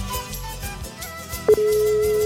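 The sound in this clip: A telephone call ringing through: a short electronic beep, then a steady, unbroken tone that holds to the end, over music playing underneath.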